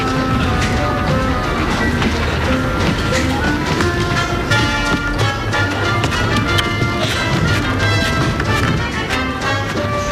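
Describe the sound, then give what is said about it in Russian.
A train at a railway station: dense, steady clatter and rumble that fills the whole clip at an even loudness, with scattered sharper metallic clicks on top. “И вот снова знакомая железнодорожная станция.”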